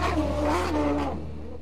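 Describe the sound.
Race cars at a Havasu racing event accelerate in a short, loud engine roar whose pitch climbs and then drops away as the sound fades slightly.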